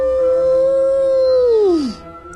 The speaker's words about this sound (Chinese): 是狼，一群狼跑过来